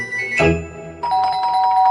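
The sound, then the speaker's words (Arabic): A doorbell rings at a house: a bright chime strikes first, then a sustained, gently pulsing ringing tone carries on to the end, with no one talking over it. “جرس الباب بيضرب”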